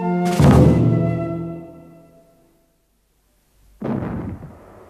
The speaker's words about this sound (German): Zwei kleine Kanonen schossen harmlos wie ein Spielzeug zum blauen Himmel an.